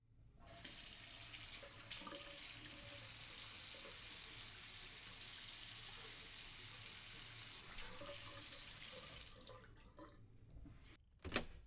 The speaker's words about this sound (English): Ugh, that feels much better. Getting out of my plain clothes, washing my face, ugh.